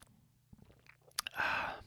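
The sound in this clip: A single slurping sip of hot Celestial Seasonings Mandarin Orange Spice tea: a few faint clicks in near quiet, then one breathy, fairly loud slurp lasting about half a second before it fades.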